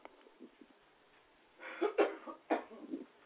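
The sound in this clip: A few muffled coughs from someone with something in their throat come in short, faint bursts near the end, after a quiet stretch.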